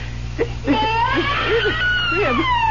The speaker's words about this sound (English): tell me you hear what I hear. A baby crying right here in this crib.